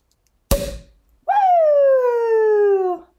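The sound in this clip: A champagne bottle opened with a twist, its cork popping once, sharp and loud, followed after a short pause by a long voiced cheer that slowly falls in pitch.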